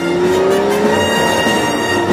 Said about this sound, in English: The car lands on concrete and continues its speedy drive into the city.